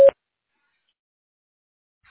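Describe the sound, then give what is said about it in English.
A voicemail tone plays before a message is left: a single short, steady mid-pitched beep at the start, followed by silence. “To leave a voicemail, press 2, or simply stay on the line. Please leave a message after the tone.”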